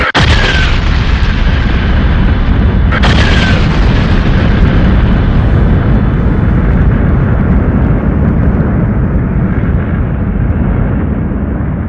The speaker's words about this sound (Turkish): Nova veya süpernova olarak adlandırılan yıldızlardaki demir miktarı belli bir oranı geçince yıldız bunu taşıyamaz hale gelir ve patlar.